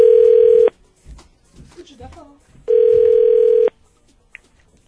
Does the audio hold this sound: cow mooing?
no